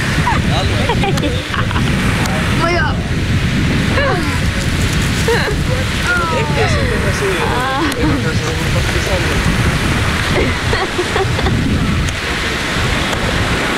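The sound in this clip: Sea waves surge as people run into the sea. A steady, broad wash of surf fills the whole stretch, with voices and shouts rising over it throughout.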